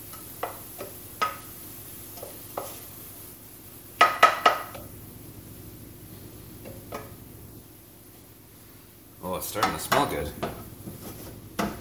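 Orzo being stirred in a pot for a sausage orzotto, with a utensil clinking and scraping against the pot: scattered light ticks, then a short cluster of clatter, and a longer busier stretch of knocks near the end.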